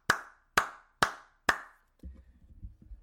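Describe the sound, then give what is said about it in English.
A golf clap: four slow, evenly spaced single hand claps, each crisp and sharp, followed by faint low rumbling. “I want to give a good golf clap.”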